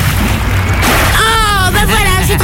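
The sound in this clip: A person jumping into water makes a broad, rushing splash that fills the opening second. It gives way to churning water noise, with a voice-like cry rising over it.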